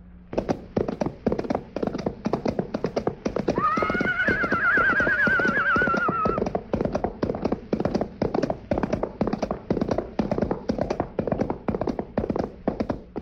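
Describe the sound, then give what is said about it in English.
Galloping horse hooves made with coconut shells as a radio sound effect: a fast, steady clip-clop rhythm runs throughout, with a loud horse whinny rising over it in the middle. “who would have thought that Silver would turn out to be just a set of plungers or four coconut shells or four hands galloping across a hollow box?”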